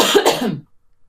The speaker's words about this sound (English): sorry, I have something in my throat.